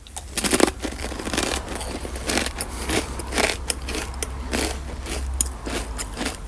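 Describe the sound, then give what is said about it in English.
Crunching as someone eats a corn chip topped with Taco del Diablo hot sauce, many crisp, crackly bites and chews in an uneven rhythm, fairly quiet and with no talking. “All right, Taco del Diablo. I put a little on a corn chip again.”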